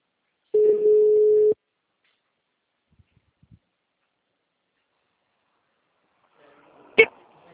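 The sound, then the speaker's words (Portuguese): A phone line tone as an incoming call connects: one steady mid-pitched beep lasting about a second, then near silence with a few faint clicks and one sharp click near the end. “Espera que agora vai entrar a ligação.”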